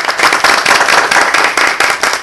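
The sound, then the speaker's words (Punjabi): Audience clapping loudly at a celebration honouring a 194-year-old tortoise, a dense burst of many hands that swells and dips in uneven waves. “ਮੈਂ ਕਹਿੰਦਾ ਜੀ, ਤਾੜੀਆਂ ਨੇ ਤੁਹਾਡੇ ਲਈ ਭਰ ਭਰ ਕੇ, ਤੁਹਾਡੇ ਵਾਸਤੇ ਕਲੈਪਿੰਗ।”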